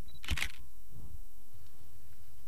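A camera shutter clicks as a photo is taken, a quick double snap near the start, followed by quiet background hiss.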